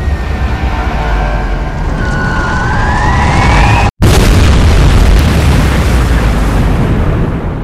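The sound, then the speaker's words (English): A 1,000-pound bomb dropped from a plane onto a warship: a whistling tone over a rushing roar, then a brief gap and a loud, sustained, rumbling explosion that fills the rest. “He sees her fat 1,000-pound bomb separate. The plane roars, breaking off. The bow sights the water, but too slow. The black explosive-packed ordnance whistles right down for her.”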